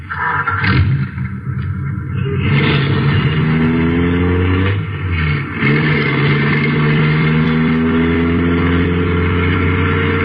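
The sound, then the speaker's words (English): An American car driving off in Chicago, its mid-pitched engine roaring loudly as it revs and accelerates in rising surges, the tone climbing and dropping between gear-like pushes. “Well, why don't you drive? Or don't you know how to handle an American car? There is no need to be insolent. Get in. Drive.”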